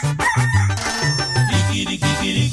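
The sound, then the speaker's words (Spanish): A rooster crows in wavering, drawn-out calls over music with a steady, repeating bass pattern. “Mucha gente me ha dicho que el canto del gallo recuerda cuando uno está mal. El canto del gallito le recuerda a Pedro que traicionaba a Jesús.”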